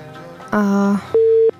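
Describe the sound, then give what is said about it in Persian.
Electronic telephone tones after a call-in line drops: two steady beeps, the first lower and buzzy, the second higher and purer, with faint hum between them. “تماس زبیر جان قطع شد متاسفانه.”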